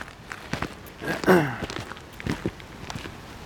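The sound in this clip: Footsteps tread outdoors on a birdwatching walk, a run of soft, uneven steps with one louder scuff in the middle, over a quiet background.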